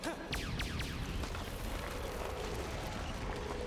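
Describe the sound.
Explosive blasts in a video game merge into a continuous heavy roar of booming and rumbling, loud and unbroken, with a few brief sweeping tones early on.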